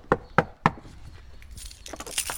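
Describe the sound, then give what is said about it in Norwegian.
A gate opens at Brekkeparken, Telemark Museum in Skien: three sharp knocks or clanks in quick succession, then a stretch of soft scraping and rustling noise. “Porten åpner seg.”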